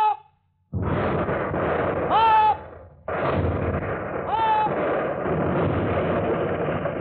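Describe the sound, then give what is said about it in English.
Warship guns fire shells at another ship at sea: two sudden, heavy booms each open a long, roaring rumble, and brief whistling tones ring out over the din. “Every 10 seconds, the guns were ready and loaded, and every 10 seconds, the shells were hurled out of them.”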